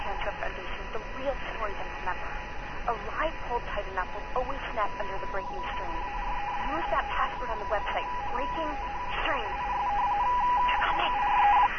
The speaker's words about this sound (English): it was actually interactive, a true voicemail box system. And if you press each one of those buttons, as you heard on there,